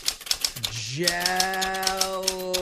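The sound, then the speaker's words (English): Rapid, rhythmic clacking of a typewriter continues throughout while a voice sounds over it, sliding into a sustained tone. “You're not even doing the job yet. You're using a typewriter.”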